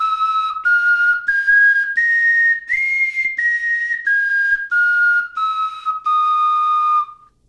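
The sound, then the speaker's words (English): A reconstructed bone fipple flute, with a chipped fragment left in place, plays a breathy whistling scale of about ten separate notes. The notes step upward in pitch and then back down, each held briefly. “this would have been one of the bone flutes that were played in those years. So I reconstructed it as a fipple flute, leaving in place a small piece of bone that was chipped off in the original in the British Museum.”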